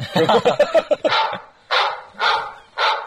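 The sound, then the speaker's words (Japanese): A dog barks four times in a steady, spaced rhythm, each bark loud and sharp, right after a person finishes speaking. “ワンワン言ってるよ”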